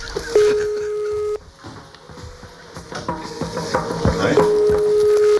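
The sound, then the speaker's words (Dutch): A telephone call being placed to someone in bed. A steady ringing tone holds for about a second, breaks off amid clattering background noise, then returns near the end. “We proberen iemand op te bellen die in zijn bed ligt.”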